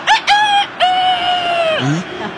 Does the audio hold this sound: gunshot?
no